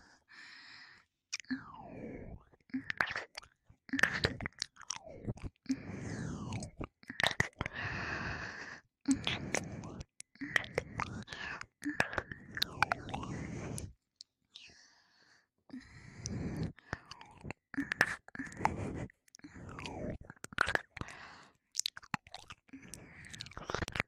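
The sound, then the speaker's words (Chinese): Kissing on the mouth in an intimate setting, with many soft wet smacks and lip clicks in irregular clusters, interspersed with sighs, breaths and quiet whispering. “哥哥，你的嘴巴别乱跑，人家要亲你的嘴巴。”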